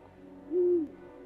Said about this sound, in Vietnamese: Đêm hôm đó, ở đầu nhà, tiếng cú kêu lên nghe thê lương vô cùng.